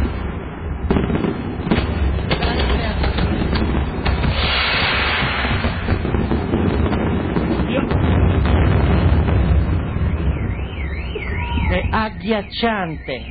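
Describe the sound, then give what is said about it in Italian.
Dense barrage of gunfire and explosions smelling of gunpowder, with many rapid bangs and blasts running together in a loud, unbroken roar, joined near the end by wavering, warbling voices or a siren-like tone. “c'è il rumore della polvere da sparo”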